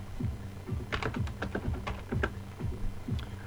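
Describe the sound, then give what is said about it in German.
Many quick, soft key clicks from typing text into a file on a computer keyboard, in an uneven, rapid rhythm, fairly faint, with no voices. “Ich kann jetzt schon etwas eingeben, das dann in die Datei geschrieben wird.”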